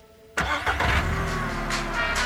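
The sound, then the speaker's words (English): A car engine starts with a sudden loud catch after a quiet moment, then settles into a steady running rumble that carries on to the end. There is no talk. “start the engine, the music starts back up again”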